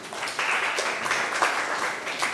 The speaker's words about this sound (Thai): ถูกต้องค่ะปรบมือให้เพื่อนหน่อย